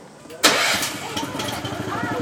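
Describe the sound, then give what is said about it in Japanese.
An engine of a lever-driven vehicle starts with a sudden loud burst, then settles into a steady running idle with a rhythmic throb. “はい、エンジンですこれ。”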